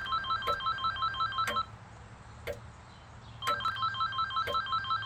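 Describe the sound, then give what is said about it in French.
A telephone rings with an electronic trilling ringtone in two bursts separated by a short quiet gap, loud and steady, with no one speaking. “Y'a ton téléphone sonne, mon hun.”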